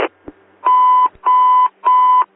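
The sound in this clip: A radio dispatch medical alarm sounds three loud, steady electronic beeps of equal length and even spacing, each a buzzy mid-pitched tone, preceded by a couple of short clicks.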